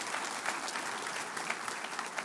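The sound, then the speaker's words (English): Audience applause at a gathering honoring a group of people: dense, even clapping from many hands, sustained without a break and fairly faint throughout. “One more huge round of applause for these amazing people.”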